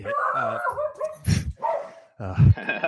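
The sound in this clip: A dog barks during a sports talk show recording, giving a few sharp barks with whiny yips between them.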